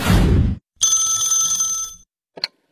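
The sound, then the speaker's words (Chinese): A telephone rings with an incoming call, one bright, warbling electronic ring lasting about a second, with a short faint blip after it. A brief burst of rough noise comes just before the ring. “小何的表弟打来了电话”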